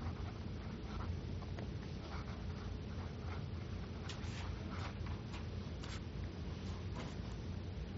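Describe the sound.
Marker or pen handwriting during a physics lecture, heard as faint, brief squeaky strokes clustered in the second half over a steady, noisy background hum.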